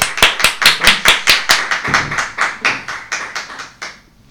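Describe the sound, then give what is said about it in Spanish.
An audience applauding in a loud, even rhythm, many sharp claps landing together on a steady beat and softening toward the end. “Aplausos, sí, sí, sí. Muchas gracias.”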